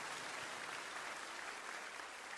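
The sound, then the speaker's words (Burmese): Faint, steady clapping from a church audience praising God during a service, a dense even patter of many hands that keeps going without a break. “လက်ခုပ်တီးပြီးတော့ထိုဘုရားကိုချီးမြှောက်ကြရအောင်”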